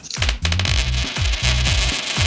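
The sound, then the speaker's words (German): A coin tossed for heads or tails to decide who starts a quiz game gives a bright metallic ringing, then rattles and chimes in repeated bursts as it spins and settles. “Ich würde mal sagen, ich werfe eine Münze, ne?”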